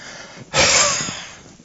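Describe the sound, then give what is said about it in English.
A single deep breath drawn in sharply through the nose and mouth, a loud, airy rush of about one second that fades gradually, heard alone after a brief quiet moment. “I'm just taking that oxygen in.”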